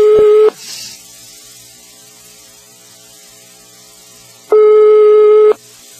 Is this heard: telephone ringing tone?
yes